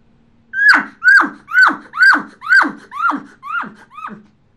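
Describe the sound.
A human voice imitates an elk cow's chuckle without a calling tube, performed by a world elk-calling champion: eight evenly spaced, clipped notes, each dropping in pitch, fading slightly toward the end.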